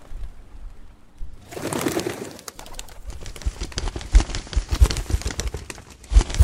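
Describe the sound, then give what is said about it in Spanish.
Hundreds of pigeons taking flight overhead at an Olympic Games ceremony: a loud whoosh of flapping wings, then many sharp clattering wingbeats. “Cientos y cientos de palomas comenzaron a volar sobre nosotros.”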